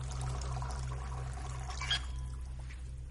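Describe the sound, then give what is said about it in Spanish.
Coffee pouring from a coffee machine into a cup: a soft, steady trickle of liquid over a low electrical hum, lasting about three seconds. “Abajo, se sirve un café de la máquina de Gale.”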